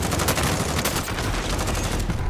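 Gunfire in a shooter video game, a loud, dense stream of rapid shots with no clear gaps between them, running unbroken through the whole clip.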